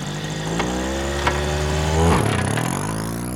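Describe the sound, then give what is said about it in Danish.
A car engine that had trouble getting fuel runs with the choke pulled out and the throttle given. A steady, rough idle hum swells into a short rev partway through, then settles back, with no talk. “Jogger og giver gas. Så starter den.”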